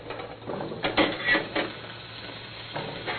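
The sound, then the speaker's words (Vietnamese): A utensil scrapes and clatters in a pan as mixed mushrooms are stir-fried, giving several uneven, moderately loud strokes over a low background. “cho tất cả các loại nấm vào, mình xào cho nó săn lại cho nó ngon.”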